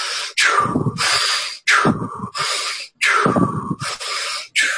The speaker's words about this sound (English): I'll have them breathe something like this and they can breathe through their nose or through their mouth, whatever's comfortable for them.